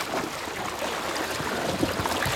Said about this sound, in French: Des vagues. Ça fait des vagues. Des vagues de plus en plus grosses.